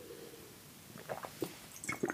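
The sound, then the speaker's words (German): Someone drinks the rest of a glass of water: after a quiet start, a few soft wet gulps and swallows come in an uneven rhythm. “Oh, warte mal, ich muss gerade Wasser austrinken, damit ich mir keine Schorle mache.”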